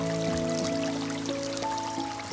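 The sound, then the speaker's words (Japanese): A small stream flows through a dense, untouched forest on a gentle slope, half-hidden by undergrowth. Its water trickles in a steady, continuous wash with no pauses. “あまり人の手の入っていない鬱蒼とした森、なだらかな斜面を下草に埋もれるようにして細い小川が流れている。”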